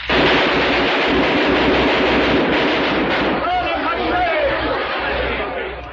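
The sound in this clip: Gunfire from a gun rolls in a dense, continuous roar of rapid shots that barely lets up for the whole stretch and fades slightly at the end, with shouting voices mixed in.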